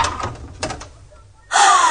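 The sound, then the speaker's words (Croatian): Knocking on a door: a few dull raps in two short clusters, followed after a pause by a louder, sustained burst of noise. “Čini mi se da je netko pokucao.”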